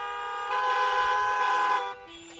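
A car horn tooting: one steady honk held for about a second and a half at an even pitch. It stands out over a constant tonal hum, then cuts off sharply.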